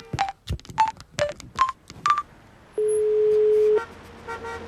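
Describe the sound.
A touch-tone telephone is dialled with five short, evenly spaced beeps, each followed by a click. After a pause comes one long, steady tone lasting about a second.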